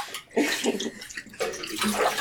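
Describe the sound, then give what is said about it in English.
Water runs from a tap for a final Ilford wash of photographic film, a broad, continuous rushing splash that is fairly loud, with small surges and dips in strength. “I am doing my final wash, my Ilford wash”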